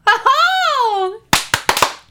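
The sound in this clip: Hand clapping: four sharp, quick claps in close succession, following a drawn-out, sung vocal tone that lasts about a second.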